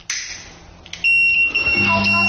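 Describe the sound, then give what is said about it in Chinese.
Gas leak alarm from a smart home safety system sounding a steady high electronic beep, triggered after boiling water put out a gas flame, with a lower tone joining near the end; no speech. “这时候呢，我们的燃气会报警”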